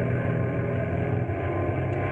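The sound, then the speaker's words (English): An airplane engine drones loudly and steadily as the pilot circles back around for a parachute jump, a dense, unbroken rumble with no voices. “And the pilot is bringing the plane around again.”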